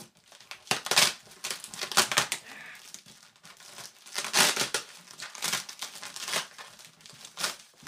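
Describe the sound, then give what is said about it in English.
Crinkling, crackling tape on a new shirt being unwrapped: many irregular bursts of crisp rustle and crumple, some louder than others, with no talk. “I got the new shirt, I knew I should have dug this out earlier. I just got tape all over it.”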